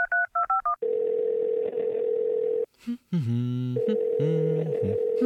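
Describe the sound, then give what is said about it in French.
Keypad dialing tones to place a phone call: a quick run of short paired beeps, then a long steady line tone, a brief break, and further sustained electronic tones, with no talk. “Je vais l'appeler maintenant.”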